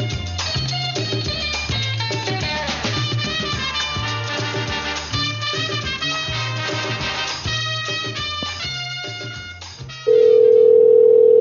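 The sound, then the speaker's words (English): Telephone call to a gas station: music plays for about ten seconds, then a loud, steady electronic phone tone cuts in and holds to the end. “let's call that Sitgo station again.”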